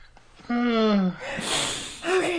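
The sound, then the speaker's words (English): A man breathing deeply: a voiced, sighing start gives way to a long, airy, noisy exhale, then a short voiced sound at the end. “I'm just going to breathe.”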